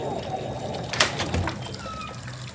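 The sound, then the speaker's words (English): Water runs from a sink tap in a steady soft hiss, with one brief sharper burst near the start. “Sorry, I didn't hear you. The sink's still running.”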